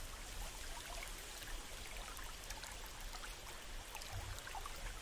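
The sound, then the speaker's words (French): Water flowing in a small winding stream, a soft, continuous trickling wash with no breaks, faint and even throughout, with no voices. “en longeant un petit ruisseau sinueux situé à votre gauche. Écoutez le bruit de l'eau qui s'écoule, se dirigeant dans la même direction que vous.”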